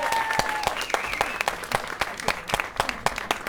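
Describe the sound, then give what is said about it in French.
An audience applauds at a live performance with irregular, individually distinct claps that rise and dip in loudness. The clapping sounds from a modest crowd rather than a solid roar. “Canal 93, donc un gros tonnerre d'applaudissements pour vous, s'il vous plaît.”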